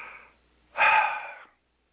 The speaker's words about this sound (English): I had to run up two flights of stairs. Hold on. One big exhale.